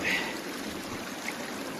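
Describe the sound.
Ice-cold water flowing steadily from a charity-built public fountain, heard as a continuous, even rushing hiss at moderate loudness throughout.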